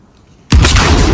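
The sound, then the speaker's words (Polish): A barrel explodes in a video game: after a brief quiet stretch, one sudden loud boom bursts in and keeps roaring with dense, heavy noise to the end. “Tą beczkę jak walnę, to się ten dach rozwali, nie?”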